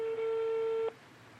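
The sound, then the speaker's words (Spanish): An outgoing telephone call's ringback tone: a single steady, low-pitched tone holds for just under a second, then cuts off abruptly, leaving only faint background hiss. “Ya está sonando. Se está sonando, está sonando.”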